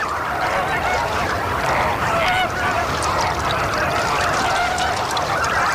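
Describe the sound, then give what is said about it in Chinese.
An adult red-crowned bird calls while searching among a flock of chicks. Dense, loud, overlapping honking cries form an unbroken chorus that runs without pause from start to finish. “一只大红冠成鸟在幼鸟群中寻找它心爱的孩子，”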